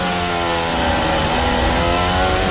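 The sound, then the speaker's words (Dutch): A racing car's engine drones loud and continuous as the driver goes on the throttle out of the final corner with the rear end stepping out, giving a sustained buzzing engine note with no pause. “Nou, hij wil op zijn gas gaan en de achterkant snapt eigenlijk gewoon weg.”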